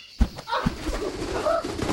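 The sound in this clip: A trained bird calls right after its hood is removed, giving short, low, cooing calls over a couple of seconds.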